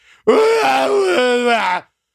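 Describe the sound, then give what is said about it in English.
A voice imitates a woman's weird screaming with one loud, sustained, wavering wail of about a second and a half, harmonic and strained, shifting pitch partway through before cutting off abruptly. “she is constantly screaming this weird,”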